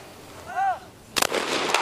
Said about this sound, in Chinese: 接下来将射击的是卡塔尔队的女选手巴西勒。